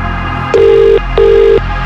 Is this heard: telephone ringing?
yes